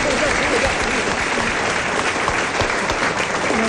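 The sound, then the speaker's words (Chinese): Dense audience applause at a live stage show, a continuous, even wash of many hands clapping loudly from start to finish with no pause. “所以咱们男同胞给鼓掌， 给男同胞给鼓掌。”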